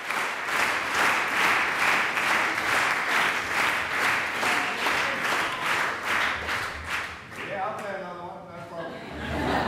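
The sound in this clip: A concert audience claps in unison, demanding a pianist's return to the stage. Many even, rhythmic claps beat at a steady pace before breaking off into voices and light laughter near the end.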